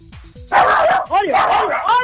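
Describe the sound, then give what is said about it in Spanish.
A woman's dog barks in a few short, sharp bursts, then breaks into loud, drawn-out yelping cries that blend with excited human voices talking over it. “Mira, qué relajo armó con ese perro de la doña ahí.”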